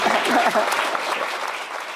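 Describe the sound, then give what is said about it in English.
Audience applause for panel speakers at the close of a UC San Diego discussion on China. Steady clapping tapers slightly toward the end, with a voice briefly heard under it at the start. “But first, let's give these guys a hand.”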